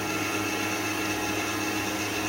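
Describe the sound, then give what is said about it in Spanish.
Electric mixer beating dough, a constant whirring whine with a humming drone underneath, steady in loudness throughout with no voices. “en cuanto termine de echar, lo dejaré batir un minutito y empezamos a poner la harina.”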